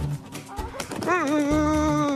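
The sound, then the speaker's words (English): Newly arrived hens from a delivery of fifty birds call out: soft clucking sounds lead into a drawn-out, wavering vocal call that fills the last second. “They are beautiful looking hens, aren't they?”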